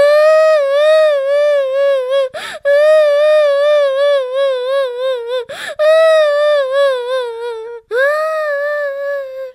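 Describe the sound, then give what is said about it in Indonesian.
A child cries loudly in long, sustained, wavering wails, each broken by a sharp gasping breath, with four drawn-out sobs in a row. “Anak hebat kalau menangis tidak pakai lama. Ayo, sudah nangisnya.”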